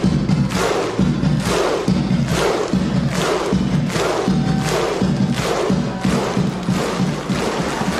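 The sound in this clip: A whole stadium crowd celebrates with a powerful chant, loud massed voices punctuated by regular, heavy rhythmic beats, sustained and even throughout.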